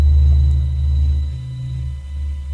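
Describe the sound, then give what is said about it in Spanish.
A deep, continuous rumble presented as the sound of the Sun, loud and steady throughout with slight swells and a faint constant hum above it. “si queréis escuchar el sonido del universo, de la potencia del universo, mirar cómo suena el sol. Escuchar esto.”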